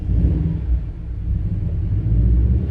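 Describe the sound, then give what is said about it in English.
A red Subaru Impreza driving past, its engine giving a deep, steady rumble that swells a little louder toward the end. “There's this dude who comes by in a red Subaru Impreza who definitely just assures me that I'm right, that everyone who drives Subaru Imprezas are assholes.”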